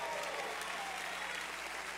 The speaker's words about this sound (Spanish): Alguien dele un aplauso al Señor.